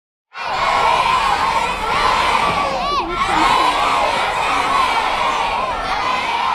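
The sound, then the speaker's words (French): Children at the Vanier school in St. John's, Newfoundland, shout and cheer together in a loud, sustained burst of high voices that starts abruptly and continues with little pause. “entendez-vous les voix des enfants de l'école Vanier à Saint-Jean-Terre-Neuve?”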